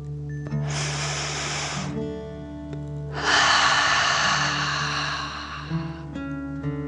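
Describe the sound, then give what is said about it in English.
A deep breath is drawn in and then let out, two long airy rushes separated by a short pause, with the exhale longer and louder. Soft music with sustained tones plays throughout. “Take a deep dragon breath, in and out.”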